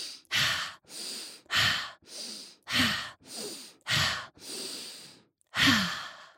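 Slow, deep breathing, a long series of loud, airy breaths in and out with short gaps between them. The rhythm is steady and the breaths sound like sighs. No speech.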